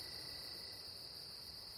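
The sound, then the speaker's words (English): Insects singing at night, a steady, high-pitched cricket-like trill that holds without pause, faint and on its own. “What are these bugs, these creatures, these insects?”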